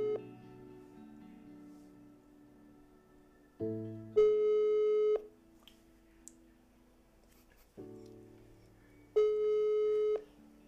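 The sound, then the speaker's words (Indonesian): A phone call ringing out: two long electronic ringback tones, each a steady pitched burst, sound clearly over a constant tonal background, separated by a few seconds of pause. “Biar gak lama-lama lagi kita langsung aja call si Putri.”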